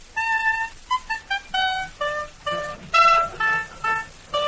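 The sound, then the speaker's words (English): Oboe playing a melodic phrase of many notes, some sustained and some short and detached, with a bright, reedy, nasal tone and no other sounds. “Whereas the oboe sounds like this.”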